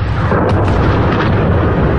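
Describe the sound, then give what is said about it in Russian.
Explosions across a city with burning factories and car alarms set off by the blasts: a loud, continuous, dense rumble with heavy low-end roar and brief sharper bursts, heard alone without talk. “У нас бахает. От взрывов орут машины, пищат здесь по соседству.”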